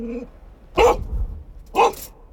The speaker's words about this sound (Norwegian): Om hunden er funn, markerer hun ved å bjeffe mot der lukten kommer fra.